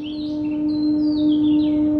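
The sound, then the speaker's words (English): Train horns from a railway station about a mile and a half away hold a long, steady, low-pitched drone, while birds chirp and warble in high, scattered bursts above it. “Those horns are coming from a railway station about a mile and a half from our home.”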